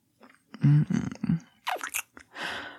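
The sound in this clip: Someone chews and eats food in a series of wet, smacking bites and crunches in an uneven rhythm, fairly quiet, with brief pauses between bursts.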